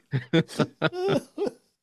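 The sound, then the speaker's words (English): A man coughs in a series of short, rough, voiced bursts, with one longer hacking cough near the middle. The coughs are moderately loud and stand alone, with quiet gaps between them. “He's coughing. yeah, I'm coughing.”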